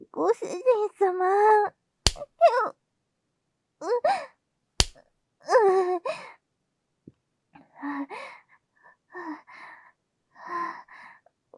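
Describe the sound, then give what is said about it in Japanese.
Two sharp slaps on the buttocks during a spanking, crisp isolated smacks a few seconds apart, set among a woman's pleading speech. “もう、お尻を叩くのは、ちょっと、ご主人様、待って。”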